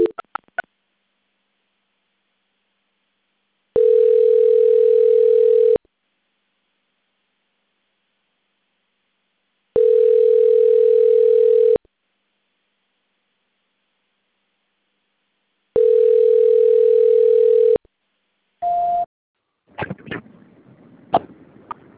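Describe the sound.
A telephone tone plays during a call transfer: three long, steady beeps spaced by several seconds of silence, followed by a short beep and a few clicks and faint line noise.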